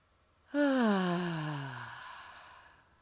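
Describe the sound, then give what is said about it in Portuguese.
A deep breath during a guided breathing exercise, heard as one long, full exhale: a voiced sigh that starts strong, falls steadily in pitch and fades out, with no other sound. “Faça uma ou mais respirações profundas, expandindo ao máximo o pulmão e o abdômen e expirando todo o ar.”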